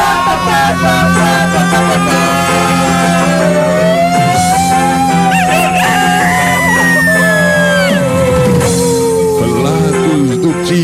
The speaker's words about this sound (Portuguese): Mas olha o galo. Olha o galo da galo hoje, hein? Hoje tá grandão.